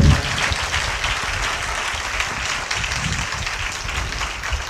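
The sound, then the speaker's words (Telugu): Applause from a church audience, a dense and steady wash of many hands clapping together, loud and even from start to finish with no pauses. “సంఘము చప్పట్లు కొట్టలేకపోయారా”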